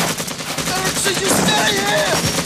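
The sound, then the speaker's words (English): Rapid bursts of gunfire from an exchange with men on a boat along a riverbank in a war setting, loud and continuous, with shouting voices rising through the volleys. “The squad exchanges fire with the men on the boat, one of whom is blown into the water.”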